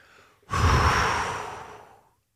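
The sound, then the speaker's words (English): A deep breath out, one loud, breathy exhale lasting over a second that gradually fades, with a faint breath just before it. “deep breaths”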